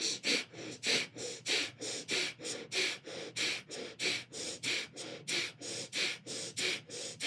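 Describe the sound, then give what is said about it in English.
Breath of fire, rapid rhythmic breathing through the nose with navel pumping: many sharp, even nasal puffs at a steady pace of about three per second, soft and alone. “you're going to breathe the breath of fire through your nose, pumping your navel. It's going to sound like this.”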